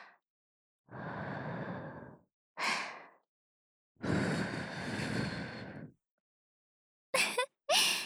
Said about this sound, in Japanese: 耳かきの最後はふうふう。